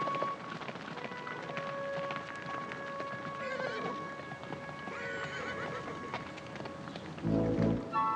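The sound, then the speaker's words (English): A horse is ridden up to a house with a porch and a gate, its hoofbeats a steady, muffled drumming under a noisy, hissing background, with no voices. “He stops when he realizes Dylan is riding up.”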